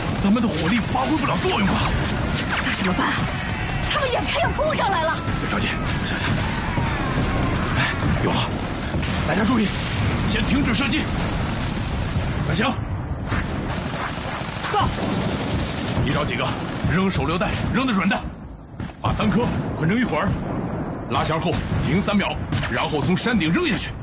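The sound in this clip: Heavy gunfire and machine-gun bursts in a hillside battle against attacking soldiers form a dense, continuous, loud rattle of rapid shots, with voices shouting over the din throughout.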